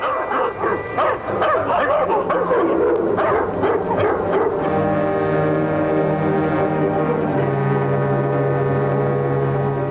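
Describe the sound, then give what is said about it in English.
Two dogs barking at farm animals outside a house: quick, overlapping barks and yips for the first few seconds, then a sustained, steady tonal chord that carries on alone. “two dogs confront the animals”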